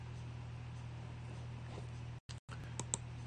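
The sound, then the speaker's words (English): Typing on a computer keyboard to enter a stock search for Tesla: a few soft, scattered key clicks over a steady low electrical hum. “Let's type in Tesla.”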